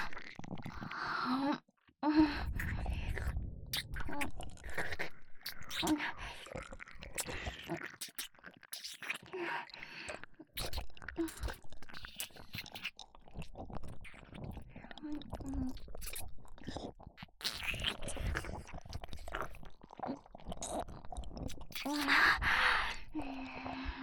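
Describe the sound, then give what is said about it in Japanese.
Chewing food, with many moist crunching bites and mouth sounds in an irregular rhythm, fairly close and clear, broken by short breathy pauses. “いいわ、勝手に食べるから。”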